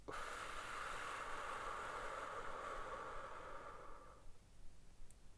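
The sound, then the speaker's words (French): A long, steady breath out follows a held breath during a guided breathing exercise, a soft airy hiss lasting about four seconds before it fades into near silence, quiet and alone. “on inspire par le nez. On bloque. On expire.”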